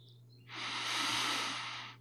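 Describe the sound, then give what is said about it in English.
A single slow, deep breath comes as a soft, airy hiss that swells and fades over about a second and a half over a low steady hum. “So I'll invite you to start with a breath.”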